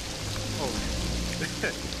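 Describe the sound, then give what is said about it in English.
Steady rain falling, a continuous even hiss of many drops striking surfaces, with no clear breaks. “It's just the rain”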